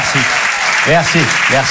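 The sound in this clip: Audience applause at a comedy show at the Apollo Théâtre, a loud, steady wash of clapping with a voice speaking over it.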